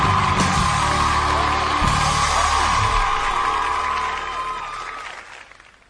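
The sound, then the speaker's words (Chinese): A live-show audience bursts into applause and cheering, with clapping and whoops that stay strong for about four seconds before tapering off and fading out. “来，咱们掌声 有 请。”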